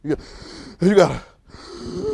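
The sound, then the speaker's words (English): Constricted, rasping breaths drawn through a training mask that restricts airflow, a few harsh breathy pulls and pushes with a strained, throaty edge. No words are spoken. “I got a little breathing mask I use right now. It's called a training mask, and I put it on sometimes, and it don't let you breathe like this. Like, you know, you breathe like that, it constrict the air a little bit.”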